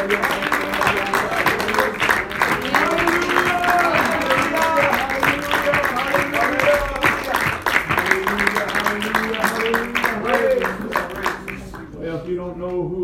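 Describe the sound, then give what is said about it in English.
An audience claps along during a church service, a dense steady patter of hand claps mixed with music and voices, fairly loud throughout before thinning out near the end. “If you love the Lord, why don't you put your hands together and clap for the Lord.”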